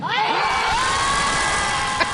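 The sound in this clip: A group of people screams together on a lake shore in Chicago. Many voices rise in one loud, sustained shriek that holds steady for about two seconds without a break.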